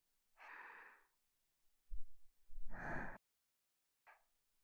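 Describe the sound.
Breathing out and in during a guided breathing exercise: a few soft, airy breaths, one longer and stronger than the others, with a brief low thump between them and no talking.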